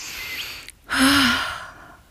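A person breathing in: a soft breathy stretch, a brief pause, then one loud, sharp inhale with a slight voiced edge that fades away.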